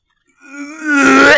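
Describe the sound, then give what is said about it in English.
A person imitates vomiting with a voiced, strained retching groan. It starts quietly, then swells into a loud, harsh, gurgling heave. “And that was the sound of me vomiting after watching that.”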